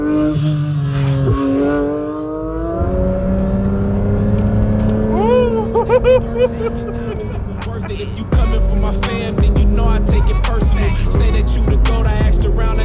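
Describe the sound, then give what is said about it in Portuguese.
A Porsche 911 GT3 RS sports car drives off, its engine note climbing in a few rising sweeps as it pulls away, then a louder, harsher roar for the final seconds. “Apenas duas pessoas viajam com conforto e muita esportividade no 911 GT3 RS. Agora, bora dirigir.”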